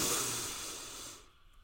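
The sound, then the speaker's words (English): A slow, deep inhaled breath taken during a guided breathing exercise: a steady, soft, airy rush lasting just over a second before fading away. “We're going to breathe together three times. Inhale possibility.”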